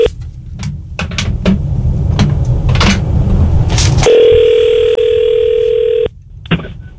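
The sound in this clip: A telephone dial tone sounds while a call is being placed. Clicks and handling noise come first, then a loud, steady tone holds for about two seconds before cutting off, followed by a few more clicks.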